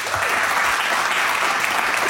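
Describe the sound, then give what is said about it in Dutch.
Warm audience applause for a performer at a live show: dense, steady clapping from a crowd, loud and even throughout with no talk over it. “Een warm en parmantig applaus voor niemand minder dan Karin Bloemen.”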